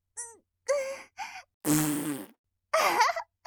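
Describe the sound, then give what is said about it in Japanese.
A loud fart echoing through a room, a long, buzzing, raspy blast among a few shorter, quieter bursts. “すごい音、お部屋全体に響いちゃった。今のおならかなりやばいかも。”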